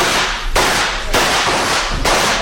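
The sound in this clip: A volley of rifle gunshots fired at a herd of elephants: four loud, sharp blasts in quick succession, each followed by a short, rough decaying tail.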